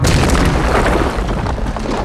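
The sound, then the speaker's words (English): A film explosion as a wall is blown out by a Force blast: a dense, deep rumbling boom that roars steadily for about two seconds, with no voices. “In a panic, Luke reaches out with the Force to destroy the vision before him. Stop!”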